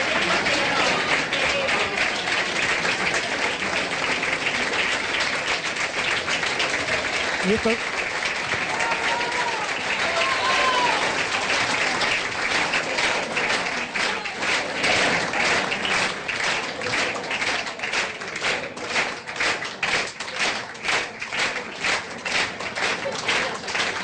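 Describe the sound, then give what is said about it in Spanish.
An audience rising to its feet and applauding at a recognition event in a national library, a dense, steady wash of many clapping hands that continues loudly for the whole stretch. “Esos aplausos que escuchaste porque toda la gente se pone de pie para recibir a Nora Cortiñas.”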